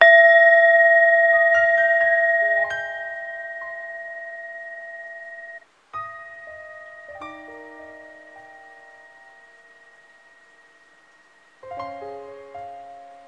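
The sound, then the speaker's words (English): A singing bowl struck several times rings with clear, sustained metallic tones that slowly fade, each new strike adding fresh overtones; no voices are heard. “Let's begin, as we always do, listening to the sound of the bowl and closing our eyes down gently.”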